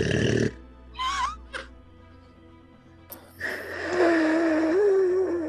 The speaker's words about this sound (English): Has he snored like that the rest of the time?